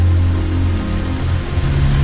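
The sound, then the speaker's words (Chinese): Rain falls and splashes around an umbrella being twirled, a dense, steady hiss of drops with a low rumble beneath, loud and continuous throughout. “见左右无人，医生心情颇好的转了一下雨伞，看着雨滴在四周飞溅而落”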